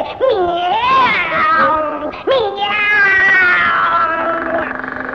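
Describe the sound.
Two long, drawn-out cat meows, loud and wavering in pitch, with the second one stretching over several seconds.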